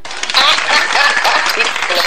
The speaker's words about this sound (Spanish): hasta Guanajuato se van estos aplausos